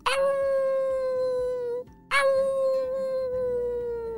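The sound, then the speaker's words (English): Jackals howl at night, two long calls separated by a brief gap, each opening with a sharp, high onset before settling into a sustained, slightly sinking tone. “Whoa, those jackals sound like they're getting close.”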